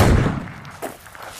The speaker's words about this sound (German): Nachher legt man sich auf eine Matte, bringt das Gewehr in Position und zielt. Trotz Gehörschutz blasst es einem fast die Ohren weg.